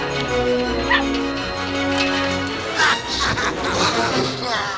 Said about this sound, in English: Outside, a line of dogs wait to enter a brick building.